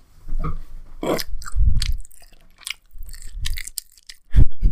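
Loud, deliberately exaggerated ASMR-style chewing and biting while tasting a sauce, with a series of irregular wet, crunchy mouth bursts separated by short pauses and no talking.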